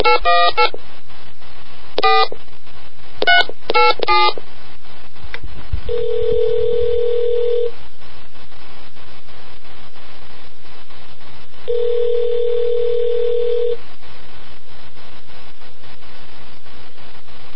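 Telephone dialing: a quick burst of touch-tone keypad beeps, then two long ringing tones separated by a pause, over a steady line hum.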